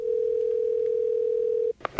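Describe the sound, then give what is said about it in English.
Telephone dial tone heard as a call is placed: a steady, unbroken mid-pitched hum holds for about 1.7 seconds, then cuts off and gives way to a few short clicks. “we're going to call her and say that she owes a big bill, and there's some curious phone calls on there.”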